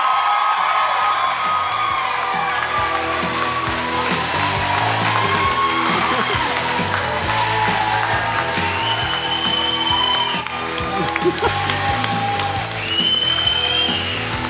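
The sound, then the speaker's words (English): A crowd cheers, whoops and applauds to welcome rock singer Sammy Hagar, keeping up loud crowd noise for the whole stretch with music playing underneath. “Ladies and gentlemen, please give a big rock solid welcome to the Red Rocker, Sammy Hagar!”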